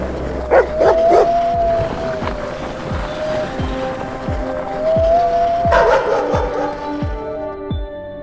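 A pair of sled dogs bark and yip in a steady, repeated series of sharp calls, with short whining tones between them, moderately loud throughout.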